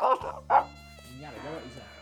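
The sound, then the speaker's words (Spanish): A dog barks during a bingo game: two short, sharp barks in quick succession, followed by a quieter voiced murmur. “¡Mira el perro!”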